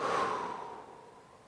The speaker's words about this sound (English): So inhale and exhale.